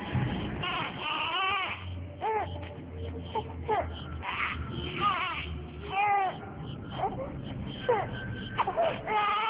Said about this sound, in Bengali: এক ঘন্টা পর বাসায় ঢুকেই সে পিচ্ছি বাচ্চার কান্নার আওয়াজ ছিল।